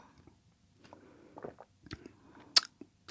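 Crunchy bites of raw celery stalk being chewed, faint and irregular, with a sharp, louder crack near the end.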